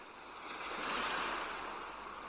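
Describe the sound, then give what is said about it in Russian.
Ocean surf washes in a soft, continuous hiss that swells to a gentle peak and then eases back, with no voices. “Все пространство вокруг вас наполняется шумом прибоя, шумом морской волны.”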